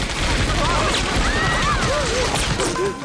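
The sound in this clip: Gunfire breaks out aboard a ship right after an order to shoot, a dense, continuous roar of shots that fills the whole stretch at a steady loud level, with voices mixed in.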